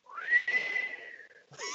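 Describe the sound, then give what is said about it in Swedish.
A person who cannot really whistle attempts it, producing a faint, breathy whistled note that rises, holds and slowly sags. A short, airy second attempt comes at the end. “Jag kan inte vissla. Det är svårt. Ja, men du får öva.”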